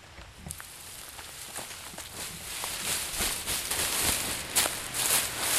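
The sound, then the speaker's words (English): Dry crunching and rustling of people treading on dry beans in their pods, folded inside a sheet to thresh them: a steady stream of many small crackly crunches that grows slightly louder, with no voices. “The point is to loosen the dry beans from their pods. They stop periodically to check on the progress and refold the sheet. And then they walk on them some more.”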